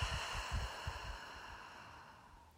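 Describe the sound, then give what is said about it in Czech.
A slow exhale through the open mouth during breathing meditation: a soft, breathy rush that gradually fades over about two and a half seconds. “Otevřeme ústa a výdech.”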